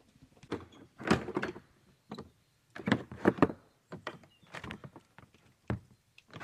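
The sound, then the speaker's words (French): Door locks being unlocked at a house entrance: a quiet series of sharp clicks and clunks in irregular bursts, some grouped closely together and others separated by short pauses. “Alors, on a entendu les verrous, merci. Je les ai enregistrés, les verrous.”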